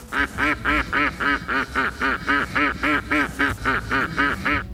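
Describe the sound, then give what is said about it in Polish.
Many loud, steady duck quacks in a regular rhythm, nasal and evenly spaced, continuing alone without talk. “Kaczka, dokładnie tak. To jest właśnie dźwięk kaczki.”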